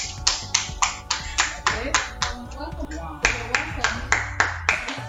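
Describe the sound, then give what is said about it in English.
An audience claps hands together in a steady, even rhythm. Sharp, bright claps repeat many times at a brisk, regular pace, with a fairly constant loudness. “Let's put our hands together for her.”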